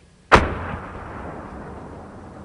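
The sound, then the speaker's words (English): A mortar round explodes in the distance over a wide-open field on an army base: one sharp, loud blast followed by a long rumbling decay that fades slowly. “Overlooking a wide-open field where mortar rounds explode in the distance, base biologist David Klaus”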